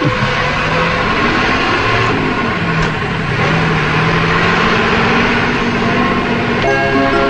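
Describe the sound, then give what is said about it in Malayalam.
A bus starting to move off, its engine giving a loud, steady rumble with a droning harmonic whine that continues throughout. “ആവുന്നതും ഈ bus യാത്ര കൊണ്ട് തന്നെയാണ്. Good God, at last it's moving.”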